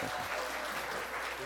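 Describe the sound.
Audience applause: steady, dense clapping from a crowd, fairly faint and even throughout the short stretch.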